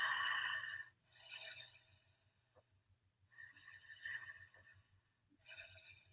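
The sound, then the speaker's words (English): Quiet breathing-exercise breaths come as a few forceful, airy rushes of air separated by short pauses, over a faint, steady low hum. “And you're breathing, and it can sound like this. It can sound like,”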